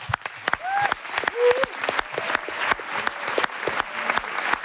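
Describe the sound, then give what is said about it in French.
A live show audience of about four hundred in Marseille gives a loud ovation. Dense clapping stays steady and strong throughout. “Dans le doute, quand même une ovation à notre chroniqueur Hamziane.”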